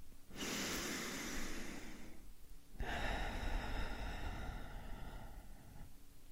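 A slow, deep breath during a guided gratitude meditation: two long, airy breath sounds, the first about two seconds and the second longer, separated by a short pause and with no talking.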